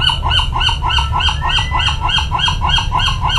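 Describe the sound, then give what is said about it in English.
Western gull calls recorded at the shore near San Francisco: many repeated harsh, nasal notes in a steady, rapid rhythm, loud over a constant low rumble. “let's do the western gull. This is a familiar sound, anybody who lives near the shore, and this was recorded at the Golden Gate National Recreation Area in near San Francisco.”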